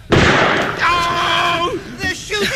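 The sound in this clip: A single sharp blast from a cherry bomb set off in a theater bursts out at the start and trails into a decaying roar, with a voice rising over the tail.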